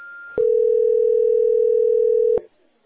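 A telephone sounds one steady, mid-pitched tone that holds unbroken for about two seconds, with a click at its start and another as it cuts off into near silence.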